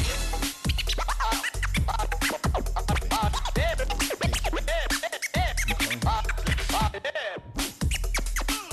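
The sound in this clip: Record scratching by a 12-year-old DJ on a turntable: many rapid back-and-forth scratches with sweeping up-and-down pitch, loud and continuous over a thumping low beat.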